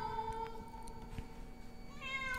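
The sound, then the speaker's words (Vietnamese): A black cat wailing mournfully: a couple of drawn-out, plaintive cries, fairly faint, one at the start and another near the end. “một con mèo đen từ đâu nhảy tới trước mặt. Sau đó nó nhìn chằm chằm vào Diệu mà kêu lên những tiếng thê lương.”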